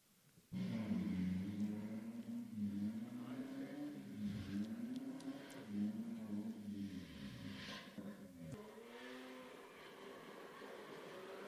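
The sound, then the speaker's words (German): A car engine roars as the car drifts, kicking in loudly about half a second in and holding a steady, rough, wavering growl to the end with no break. “Wenn es klappt, kommt jetzt ein kurzer Clip. Für die, die nicht wussten, was Driften ist.”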